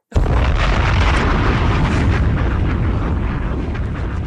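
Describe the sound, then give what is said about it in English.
A bomb-drop sound effect hits as a loud explosion: an abrupt boom that swells into a dense, roaring rumble and holds steady for about four seconds. “Wait, put the bomb drop.”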